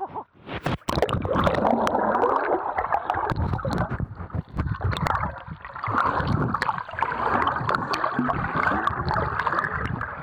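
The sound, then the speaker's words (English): Splashing and gurgling water from people swimming in the sea: a continuous churning wash with sharper splashes scattered throughout, and no talk over it. “But I'm gonna get cold if we stand here anymore. Will we just go for a swim?”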